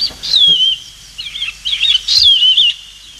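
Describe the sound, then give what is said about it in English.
A shining cuckoo calls in thin, high, loud whistles, with a couple of drawn-out notes sliding downward, separated by briefer chirping phrases. “Shining Cuckoo. Yes, good morning, Shining Cuckoo.”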